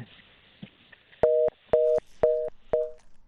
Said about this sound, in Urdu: آپ کو آواز آ رہی ہے یا آپ کا فون کا سلسلہ منقطع ہو گیا؟